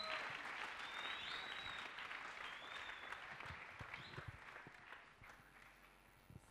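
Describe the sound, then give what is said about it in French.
A church audience applauding during a service. The dense, sustained clapping carries on throughout and eases slightly toward the end. “Acclame très bien le Seigneur.”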